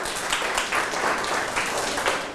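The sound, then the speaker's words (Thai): Applause from a classroom of students clapping for a classmate: a dense, steady burst of many hands that fills the whole clip at an even loudness. “เก่งมากครับปรบมือให้เพื่อนหน่อยครับ”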